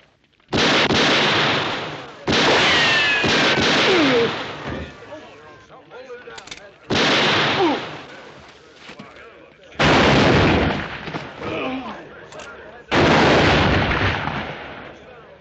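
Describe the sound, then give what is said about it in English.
Gunshots in a western drama: five loud, booming bursts of gunfire at irregular intervals, each followed by a ringing, decaying tail before quiet returns. “That's enough shooting.”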